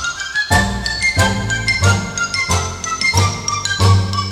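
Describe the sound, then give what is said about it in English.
Sleigh bells jingle in a steady, rhythmic shake within a Christmas song. Bright tinkling bursts repeat on a regular beat, about every two-thirds of a second, over lower sustained music. “Just hear those sleigh bells jingling, ring, ting, tingling too.”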